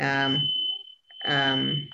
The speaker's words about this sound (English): I think that's my fire alarm. Is that your fire alarm?